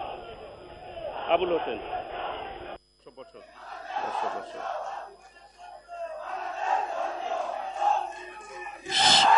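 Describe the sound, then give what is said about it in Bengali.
A crowd shouts slogans at a meeting, with many raised voices chanting in bursts. Speech mixes in over the chant, the sound cuts out briefly near the third second, and the loudest chanting comes at the end. “সবাই দয়া করে slogan বন্ধ করবেন।”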